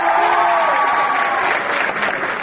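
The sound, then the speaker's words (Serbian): Applause from high school students welcoming a European Union representative in Belgrade: a brief, dense, steady burst of many hands clapping together at an even level. “Aplauz kojim su baš lepo srednjoškolci iz Beograda, Leskovca, Niša, Lebana i Rače dočekali predstavnika Evropske unije u Beogradu Vensana Dežera.”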